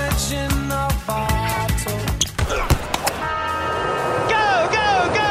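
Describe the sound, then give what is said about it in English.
Formula One racing car engines at the Australian Grand Prix on the streets of Melbourne, heard as high whining tones sweeping up and down toward the end, over loud music. “The unmistakable sound of Formula One will explode on the streets of Melbourne this weekend for the Australian Grand Prix.”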